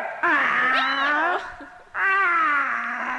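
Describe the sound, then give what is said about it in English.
A person imitating a cat, giving two long, drawn-out wavering meows separated by a brief pause, fairly loud and with no other voices. “Someone got paid to meow.”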